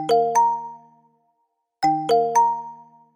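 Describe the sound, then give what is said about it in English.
An appliance cycle-complete chime, a melodic variation of the power-on tune: two bright tones ring out and fade to silence, then a rising group of three tones sounds and rings on. “The cycle complete sound is a variation of the power on.”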